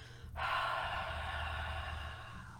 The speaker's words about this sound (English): I want you to exhale, mouth wide open.